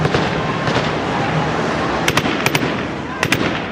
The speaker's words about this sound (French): Les forces de l'ordre utilisent des grenades assourdissantes pour les repousser, puis même des balles réelles.